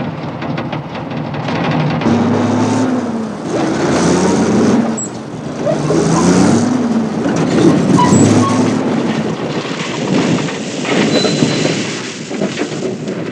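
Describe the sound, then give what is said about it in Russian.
Ural truck leaving the road and driving into a narrow forest clearing, its engine giving a loud, steady roar and rumble with shifting tones throughout. “Урал съезжает с дороги, едет в узкую просеку.”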